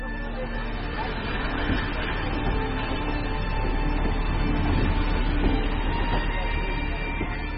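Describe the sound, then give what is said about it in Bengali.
Train departing: a steady, loud rumble with a continuous rattle, holding even throughout without clear bursts or changes. “Train ছেড়ে দিল।”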